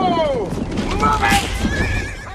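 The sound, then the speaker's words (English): A horse whinnies loudly while carrying riders across a sunny meadow, its neigh opening with a falling, quavering cry and continuing in strong, breathy waves over steady background noise. “Robin and Achu ride on Robin's horse across a sunny meadow towards a grand stone castle”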